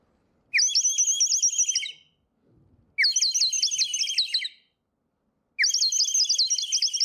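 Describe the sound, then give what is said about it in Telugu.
A bird-shaped clay whistle filled with water gives three high, warbling bursts of rapid bird-like trills. Each lasts over a second, separated by brief quiet gaps, and sounds alone. “Bowl full of water, బర్డ్ని నేను వాటర్లో పెడుతున్నా. నా same bird, same clay with water, see what happens.”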